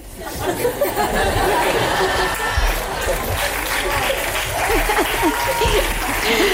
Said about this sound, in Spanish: en un espectáculo de hip hop de repente no hay música y hay muchas risas y aplausos de los espectadores.